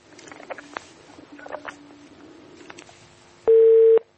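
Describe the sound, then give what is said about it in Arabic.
Telephone line sounds after a dropped call, then redialing: faint crackle, clicks and quiet low tones, followed by one loud steady electronic beep near the end. “قطع الاتصال، انقطع. طيب بحاول تاني مرة أخرى.”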